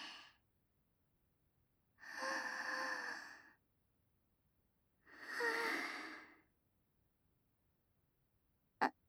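Deep breathing: two long, slow breaths, each lasting more than a second, heard alone against near silence, followed by a brief click at the very end.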